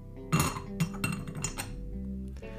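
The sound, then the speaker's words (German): A lid is put on a glass jar holding a dripping East Frisian tea filter. It gives a few bright glassy clinks, then a short run of rattling knocks before it settles. “Ich habe noch so ein Glas, wo ich einfach den Filter dann reinhänge, wo er zum Schluss in Ruhe austropfen kann. Fertig. Deckel drauf.”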